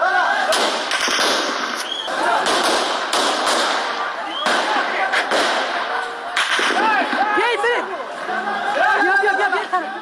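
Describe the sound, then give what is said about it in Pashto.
Sharp gunshot cracks ring out at a street protest in Kabul where aerial firing is reported, several abrupt bangs cutting through a dense, loud crowd of chattering and shouting voices throughout. “دوی اعتراض په فیسبوک باندې ژوندۍ خبرو چیري چې د ډز غوګونه هم اوریدل کیږي.”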